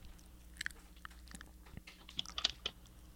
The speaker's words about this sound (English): Why you eat it like that? What's wrong with you? Oh, are you ASMRing me right now?